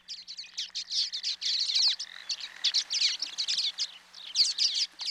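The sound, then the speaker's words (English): Common waxbill song from a flock of tiny birds clinging to tall grass stalks: a busy, continuous high twittering of buzzy chirps and trills. It is fairly faint and unbroken, with no voices. “If you're driving along the road and see a flock of tiny birds clinging to the tall stalks of grasses, there's a good chance that some of them are common waxbills, especially if you hear their song and it sounds like this.”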